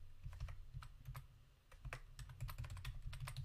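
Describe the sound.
Rapid typing on a computer keyboard: many quick, crisp key clicks in an uneven flurry with a few brief pauses, over a steady low background hum.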